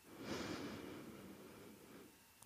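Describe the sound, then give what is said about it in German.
A single deep inhale through the nose during a guided relaxation meditation, a soft, airy breath that swells early and then tapers off over about two seconds, with no talk over it. “Und nimm einen tiefen Atemzug durch die Nase.”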